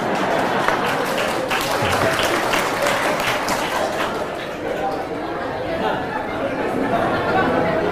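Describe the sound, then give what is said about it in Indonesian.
An audience at an Islamic boarding school gathering applauds together in a dense, steady wash of clapping that holds at an even loudness, with crowd chatter and voices underneath. “kalau mau tepuk tangan serentak, jangan satu-satu.”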